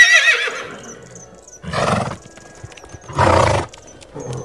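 A ridden horse gives a high, shrill whinny at the start, then two loud, breathy blowing snorts about a second and a half apart, with quieter rustling between them.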